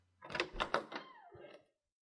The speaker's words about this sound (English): She makes short work of the lock, the tumblers turning over with the softest of clicks, and she swings the door open.